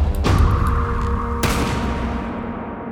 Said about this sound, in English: A bullet between the eyes finishes the job.